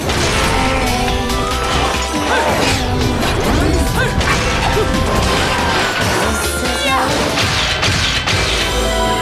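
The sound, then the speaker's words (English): A giant golden sword swung in a video game to kill an enemy, producing loud, dense smashing and crashing impacts with swishing whooshes, many hits layered continuously without a pause. “Ooh, our giant golden sword. We only had to swing it twice, and uh, we killed him.”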